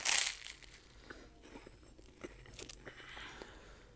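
Faint crisp crunches as someone bites into a stale, buttery waffle. A louder rustling burst at the start is followed by a few scattered, brittle snaps and soft chewing in a quiet stretch.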